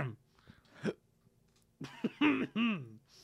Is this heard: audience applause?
no

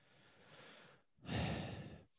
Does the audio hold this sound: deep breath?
yes

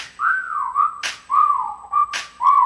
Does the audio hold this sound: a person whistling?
yes

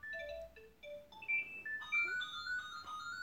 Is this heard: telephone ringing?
yes

